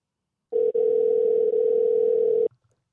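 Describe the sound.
A telephone dial tone sounds while a caller redials after a dropped call: a steady, mid-pitched electronic hum lasting about two seconds, briefly cutting out once early on, then stopping abruptly, with no voices.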